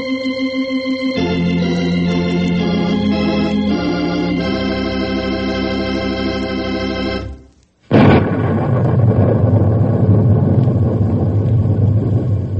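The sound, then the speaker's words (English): Thunder: a loud, deep, rolling rumble bursts in and keeps churning steadily, right after a stretch of music ends with a brief silence. “Boys and girls, I'm sure you recognize that sound you just heard. In fact, you can still hear it a little bit, I guess. It's thunder.”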